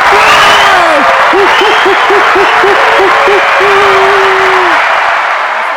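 Crowd cheering and applause sound effect, with a long held tonal whoop, a quick run of short repeated whoops, then another sustained tone over a steady wash of clapping and crowd noise that fades at the very end.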